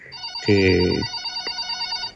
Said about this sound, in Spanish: bueno, tenemos la primera llamada.